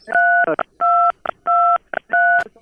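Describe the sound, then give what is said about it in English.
Telephone keypad tones from a caller dialing numbers on a phone line, four sustained dual-pitched beeps in an even rhythm, each followed by a shorter clipped burst, clear and loud with no talk. “Someone was dialing numbers. I didn't hear you. Someone's hitting numbers. Hello. Yeah. I think you're hitting your numbers.”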